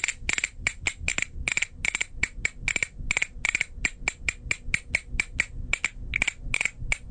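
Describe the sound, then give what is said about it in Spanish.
Castanets click for a birthday celebration: many sharp, bright clacks in quick rhythmic runs and flurries, fairly quiet and with no voices over them. “Y aquí tenemos para a ella la vamos a celebrar con castañuelitas.”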